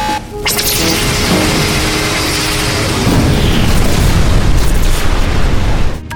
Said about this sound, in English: I am Captain Tane, and that was my warning shot.